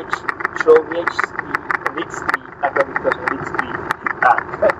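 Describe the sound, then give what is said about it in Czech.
A motor runs steadily during a recording session, a low, rough mechanical rumble with regular pulsing that sits beneath people talking throughout. “ty nemůžeš vypnout, prosím tě, ten motor, já myslím, že to nějak ekvalizérem doženu”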